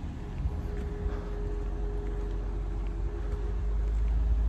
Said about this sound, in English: This lady just drove by all slow